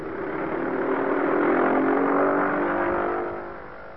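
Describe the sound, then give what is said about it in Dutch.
An aircraft engine at full throttle gives a steady, droning roar with strong humming tones. It swells to its loudest midway, then fades over the final second. “Ik geef vol gas”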